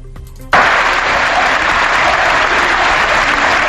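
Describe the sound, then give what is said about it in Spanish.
A full stadium crowd at Castalia erupts into applause for Castellón after a 0-1 Copa del Rey defeat to Osasuna; the clapping starts abruptly and stays loud and dense for several seconds. “Así despedía el público lleno en el estadio albinegro después de caer ante el Club Atlético Osasuna por 0-1.”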